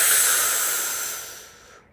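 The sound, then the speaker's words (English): A deep, powerful exhale after filling the belly with breath makes a steady, airy hiss that slowly weakens and then fades out, with no other sound alongside. “Fill that belly up. Exhale powerfully. And again, inhale deeply.”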